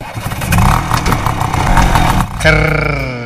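An old scooter engine runs loudly with a rough, rattling sputter for over two seconds, then gives way to a steady, sustained tone.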